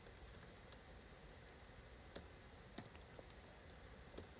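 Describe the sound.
Typing on a computer keyboard while writing code: many light, irregular keystroke taps, faint overall, with a few sharper, louder clicks standing out near the end, and no talking.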